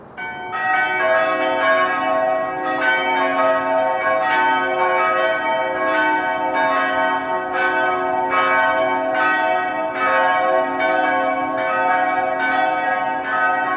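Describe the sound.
Cathedral church bells ring out over the cathedral square in the morning, echoing off the surrounding house walls. Many steady, evenly spaced strikes form a repeating chime pattern, clear and loud, with no voices.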